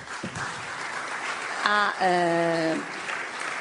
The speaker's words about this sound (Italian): pregherei i nostri ospiti, a cui naturalmente dedichiamo un applauso